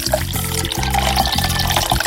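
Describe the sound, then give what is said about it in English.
Water pours into a big glass in a loud, continuous splashing rush, with a low, pulsing gurgle underneath and no talk. “now that I've poured myself a nice big glass of water”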